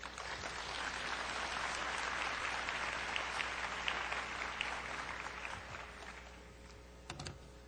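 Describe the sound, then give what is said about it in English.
Dense audience applause welcoming a speaker at a conference on health disparities: sustained, even clapping that holds steady and then thins toward the end, with a few scattered final claps. “Please join me in welcoming Dr. Williams”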